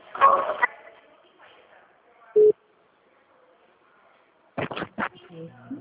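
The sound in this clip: A telephone call is transferred: a single short, steady electronic tone sounds between brief stretches of voices on the line.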